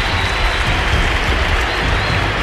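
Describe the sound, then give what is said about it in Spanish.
Stadium crowd at a football match applauds a player coming on as a substitute: a loud, dense, steady roar of clapping and crowd noise that fills the whole clip without a break. “Se cayó el estadio con aplausos a Gary Medel”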